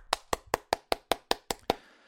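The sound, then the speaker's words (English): Nine sharp, even hand claps land in a brisk, steady rhythm, each crisp and fairly loud, alone with no talk around them. “Clap it up.”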